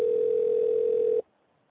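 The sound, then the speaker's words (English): A telephone dial tone is heard while a call is being dialed: one steady, unbroken tone that holds for about a second and then cuts off abruptly into silence. “Well, we're dialing now.”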